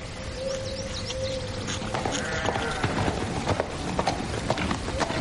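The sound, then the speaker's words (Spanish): Horse hooves clip-clopping at a steady trot along a road, a continuous run of hoof beats over a dense, noisy background. “Un caballo se acerca al trote por un camino.”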